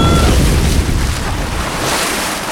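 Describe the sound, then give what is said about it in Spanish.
Water floods a cave with a loud, continuous rushing roar, a dense wash of churning noise that holds steady throughout with no voices. “¡La gruta se, se inunda! ¡Pronto no podremos salir!”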